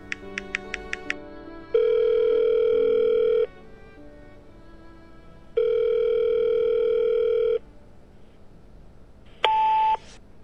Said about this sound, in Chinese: 电话响了半天才接通。